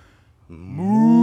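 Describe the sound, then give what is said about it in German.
A person imitates a cow's moo while exhaling. After a short, nearly silent lead-in, a low voiced drone starts softly and swells louder, its pitch rising slightly as it holds. “Und dann ausatmen. Und zwar in Sprache einer Kuh.”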